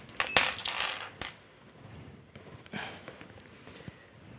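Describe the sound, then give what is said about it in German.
Dice clattering as an eight-sided die is rolled for hit points during a tabletop role-playing game: sharp clicks and rattles in a quick burst, then a second, quieter run of small taps as it settles. “ich darf dann auch würfeln auf meine Lebenspunkte.”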